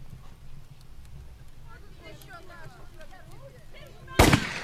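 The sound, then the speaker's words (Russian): A policeman fires a single gunshot, a sharp, loud crack near the end that follows a stretch of quiet murmuring voices. “Полицай стреляет в Варвару.”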